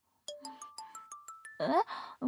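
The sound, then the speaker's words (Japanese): A phone ringtone plays a quick melodic run of short, bright chiming notes in an even rhythm, moving mostly upward in pitch, then a breathy voice sound takes over at the end. “なに？電話？君の？”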